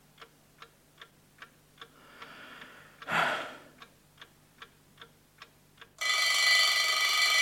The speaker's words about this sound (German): Es war der Wecker auf dem Nachttischchen. Auf ihn hatte ich gewartet.